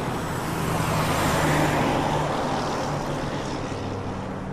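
Traffic roars past on a motorway while a car is stopped at the roadside for repairs: a continuous, even rushing noise with a low engine hum underneath, with no clear breaks.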